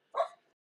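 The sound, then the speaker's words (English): A single short dog bark, fairly loud and heard alone, followed by silence. “Please welcome the dog back.”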